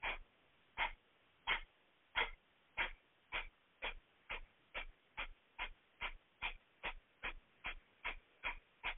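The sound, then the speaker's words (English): Forceful belly-contracting exhales of a breath of fire breathing exercise, many short sharp puffs in a steady rhythm that gradually quickens, fairly quiet with silence between each breath. “We'll do our breath of fire again. That's the breath that contracts the belly back. Okay, it has a strong sound, so you're making it by contracting the belly back.”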